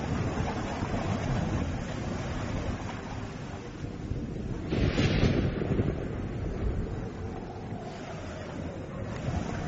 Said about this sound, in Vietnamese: Nước Tro đủ dạng chảy xiết, tiếng ầm ầm tạo cảm giác rần rần.